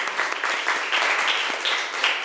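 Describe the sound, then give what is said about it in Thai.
Children in a class applaud a classmate who has just presented, a dense, even patter of many small hands clapping at a steady loudness throughout. “เด็กๆครับปรบมือเป็นกำลังใจให้เพื่อนหน่อยค่ะ”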